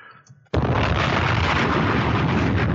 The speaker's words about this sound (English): And we'll throw in a funk flex bomb. You know, just for that, let me find the right,